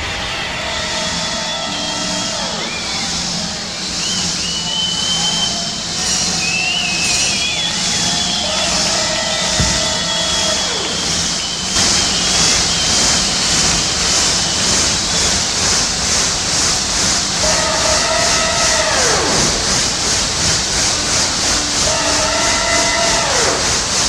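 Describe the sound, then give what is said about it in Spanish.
A train passes through mountains, its whistle sounding a few loud drawn-out blasts over a steady rolling rumble of wheels and cars that carries on throughout. “¿Será un pájaro? ¿Será un lobo? ¡No! ¡Es un tren!”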